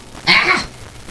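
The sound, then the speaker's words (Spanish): A cat coughing up a hairball: one short, rasping, throaty hack bursts out loudly and then fades into quiet. “¿Acabas de escupir una bola de pelos? Ahora sí. Ahora sí, ya voy. Y ya, terminó de escupirla.”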